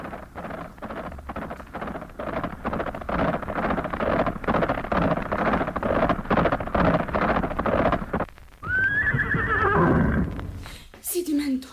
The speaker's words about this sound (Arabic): لاح له فارس على جواد وهو ينهب به الأرض ويغريه على الركض ويتجه به إليه ويقبل عليه.